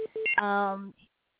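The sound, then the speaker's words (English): Beeping sounds on a telephone line during a call: a few short tones, then a longer, buzzy, steady beep that cuts off abruptly, fairly faint and brief. “Oh, yes, I heard some beeping. Maybe it was a line coming through.”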